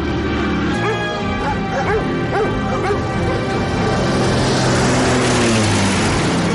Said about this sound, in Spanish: Un perro le ladra.